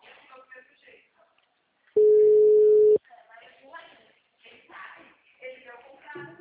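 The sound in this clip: A steady, single-pitched telephone tone while a call is being placed, one loud burst about a second long, with people talking before and after it.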